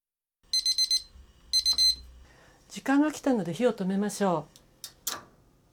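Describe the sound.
Digital kitchen timer signalling the end of rice cooking time, after a 12-minute simmer. It gives two short bursts of rapid, high-pitched beeps, followed by a person talking.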